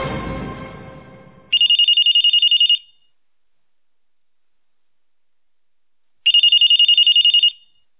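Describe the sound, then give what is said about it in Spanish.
An electronic telephone ringtone for an incoming call: two loud bursts of rapid trilling tone, each lasting just over a second, separated by a long silent gap. “¿Aló? ¿Aló? Tenemos una llamada. Tenemos sí, una llamada.”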